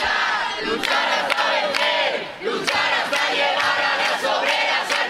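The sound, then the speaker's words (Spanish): A protest crowd chants in the streets of Madrid. Many voices shout in unison in loud, repeated bursts, with brief dips between phrases. “El sonido ahora mismo en las calles de Madrid.”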